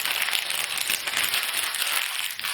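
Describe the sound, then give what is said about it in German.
Crinkling of thin plastic foil as it is unwrapped from an iPhone 7 Plus box, a continuous dense crackle and rustle with no voice. “ich packe jetzt einfach mal die Verpackung aus. Es ist normalerweise so, dass die in so einer dünnen Folie noch eingepackt ist.”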